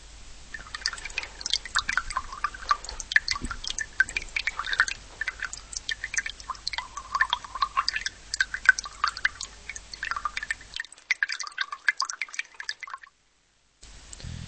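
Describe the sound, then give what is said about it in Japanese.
Water drips in a limestone cave, with many irregular, crisp drops pattering continuously at a moderate level. The dripping cuts briefly to near silence shortly before the end. “どこかで水が流れる音が耳に心地よいが、鍾乳洞が生えた天井がぬらぬらと不気味に光っている。”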